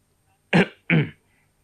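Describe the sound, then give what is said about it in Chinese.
Two short, dry coughs clear a throat, evenly spaced about half a second apart, each a rough burst that fades quickly, alone against near silence. “当人们渐渐停止议论，把目光转向他们时，陈浩干咳了两声。”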